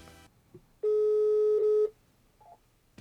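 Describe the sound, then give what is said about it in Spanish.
A telephone tone sounds while a call is being dialed: one steady, even tone lasting about a second. Faint background sounds come before and after it. “no nos cuelgues, ya le estamos marcando”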